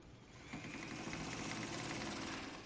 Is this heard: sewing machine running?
yes